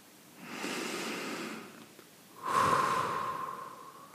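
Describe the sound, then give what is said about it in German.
A deep breath in and then out at the close of a guided meditation: a soft, airy inhalation followed by a slightly louder, longer exhalation with a faint whistling tone, no talk. “Und dann atme zum Abschluss noch einmal tief ein und aus.”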